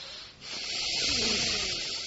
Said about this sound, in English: Get it all out. Breathe in very deep.